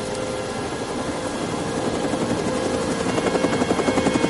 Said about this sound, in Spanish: Caminan al helicóptero. En el despacho ven el helicóptero a través del ventanal.